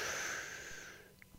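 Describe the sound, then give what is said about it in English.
A deep breath drawn in: one soft, airy inhale that thins out over about a second, faint and alone with no talk. “I want you to take a good, solid, deep breath and hold it. Here we go. One, two, three. Breathe in.”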